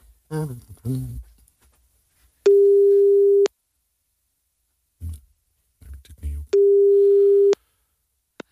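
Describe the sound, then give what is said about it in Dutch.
A telephone busy tone while calling a number: two steady one-second beeps, a few seconds apart, with brief bits of talk and clicks in the gaps. “We gaan bellen, hè, PvdA. Ja. Ik heb zijn nummer hier.”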